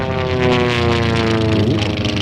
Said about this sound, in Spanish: ya va a despegar, venga. Agárrate, ponte el cinturón.